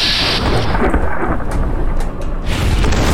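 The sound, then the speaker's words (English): A weapon-shot explosion in a video game gives a loud, sustained roaring rumble with crackling hiss, heavy and continuous across the whole moment, easing only briefly before surging back. “There we go! Yes, blowing them all up.”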